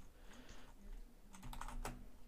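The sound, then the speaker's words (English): Typing on a computer keyboard: a faint run of quick, light key clicks that bunch up in a busier burst toward the end, with no voices. “Can you Google that real quick? Yeah. Just type in children found in Oklahoma.”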